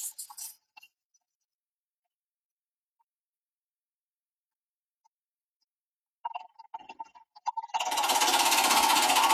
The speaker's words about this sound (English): we're going to draw from that digital basket here this morning, and we'll do that by spinning our digital wheel.